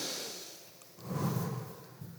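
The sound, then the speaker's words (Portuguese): A person demonstrates slow, deep breathing, heard as quiet, airy breath noise that fades softer and then swells into a louder, fuller breath. “Respira comigo, faz assim, ó.”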